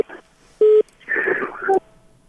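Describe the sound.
A single short, steady telephone tone marks a call-in caller's line cutting off. The tone is loud and level, and voices follow right after it.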